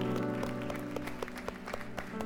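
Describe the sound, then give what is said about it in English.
Applause from a church audience welcoming guests: soft clapping with a regular beat over sustained musical tones, quiet throughout. “So if you could just wave at these guys and welcome them and give them a hand.”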